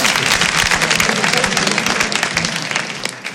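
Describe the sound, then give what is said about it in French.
Audience applause for two performers at a French comedy show: dense, loud clapping that fills the whole stretch and eases off slightly at the end, with no talk over it. “On les applaudit, s'il vous plaît.”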